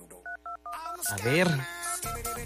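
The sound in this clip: Touch-tone beeps from a telephone being dialed: a few short, even electronic key tones in quick succession, then a person talking over a continuing background.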